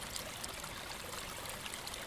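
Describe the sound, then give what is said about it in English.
Stream water flows with a constant, faint rushing hiss, blended with the steady roar of distant white water. “It is of stark contrast to the more distant roar of the white water,”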